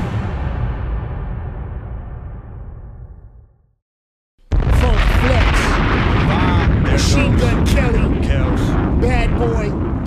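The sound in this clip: Bomb-drop sound effect: a loud rumbling roar fades into a moment of silence, then a sudden heavy blast bursts in and carries on as a sustained, crackling explosion to the end.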